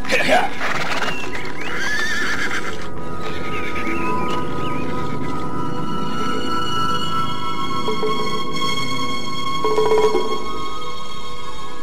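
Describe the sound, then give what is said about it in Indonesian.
Horse neighing: a tired, overworked horse gives loud, harmonic whinnies during a journey, its calls rising above a steady background, with people talking alongside. “Kuda ini sudah terlalu capek.”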